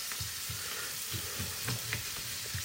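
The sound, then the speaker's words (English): A pasta sauce with lemon and lime juice sizzles in a pan, a steady frying hiss broken by a few soft stirring bumps. “There's a bit of lime juice to go in, first of all. It's cooking away there,”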